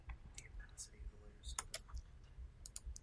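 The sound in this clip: Computer mouse clicks sound while an image is edited, a few crisp, quiet, high clicks scattered irregularly over faint background noise.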